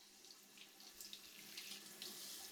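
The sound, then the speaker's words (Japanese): Warm water poured gently near the right ear, a continuous soft trickling hiss that holds steady throughout with slight ripples and no talk. “お耳の穴にお湯が入り込まないよう、そっとした勢いで”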